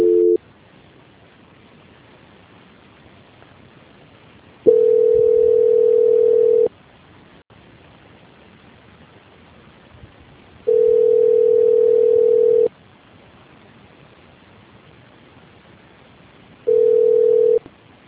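A telephone line tone during a call transfer: a steady mid-pitched tone in bursts of about two seconds, separated by silences of roughly four seconds and repeated a few times, with no talk.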